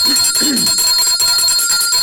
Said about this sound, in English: I have to ring the bell.